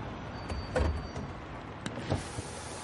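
The power window of a car parked on a quiet street is lowered, giving a faint, low electric whir with a few soft bumps against a quiet background.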